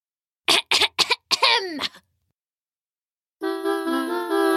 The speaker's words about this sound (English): He stood atop a dirty root and cleared his throat dramatically.